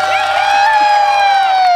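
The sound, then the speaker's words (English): Studio audience cheering: a loud, bright, sustained high-pitched whoop from the crowd that holds steady throughout. “Notice how I just shut up our audience. It was like, woo, we love it.”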